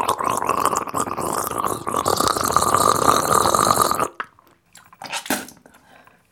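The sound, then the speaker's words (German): Gargling with CB12 mouthwash, an alcohol-scented rinse: a loud, steady bubbling gurgle in the throat for about four seconds, then it stops and a couple of short, softer wet sounds follow, with no talking. “Deswegen nehme ich jetzt mal dieses CB12-Gurgelzeug. Das riecht ein bisschen wie Mundspülung, ein bisschen nach Alkohol. Ich probiere das jetzt mal.”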